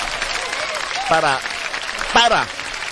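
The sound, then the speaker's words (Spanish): Audience applause forms a continuous wash of clapping throughout. Two brief, swooping harmonic calls rise and fall above it, the second slightly louder. “Un aplauso para todos los que están descansando, para todos los padres de familia,”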